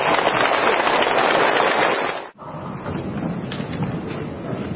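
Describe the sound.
Audience applause at a Buddhist dharma talk: dense, sustained clapping from many hands, dipping briefly near the middle before continuing strongly to the end.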